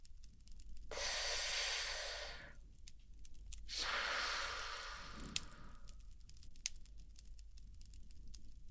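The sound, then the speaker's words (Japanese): Long, breathy exhales of sweet-smelling herbal smoke, not tobacco: two drawn-out hissing breaths with quiet gaps between them and a few faint clicks afterward. “おっと、失礼。煙は平気？ああ、これはタバコとは少し違う。苦味のない、甘くていい香りがするだろう。”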